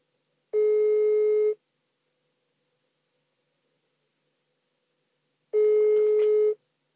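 Ringing tone of an outgoing telephone call: two steady electronic tones, each about a second long, sounding roughly five seconds apart with silence between them.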